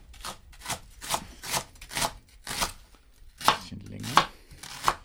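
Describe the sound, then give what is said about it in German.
A sharp knife chops leek into medium pieces on a board, making a series of crisp, evenly spaced strokes. Each stroke is a quick bright crunch that stands out clearly against near silence. “den Porree mal so in mittelgroße Stücke. Man kann die Schärfe des Messers richtig hören, stellt Andi Knoll fest.”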